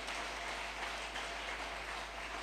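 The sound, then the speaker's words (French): Congregation applauding in a church service, clapping hands together as a dense, steady wash of claps that keeps going without a break for the whole stretch. “Au nom de Jésus, acclame très bien, acclame très bien, acclame. Chapa kofi muzuri.”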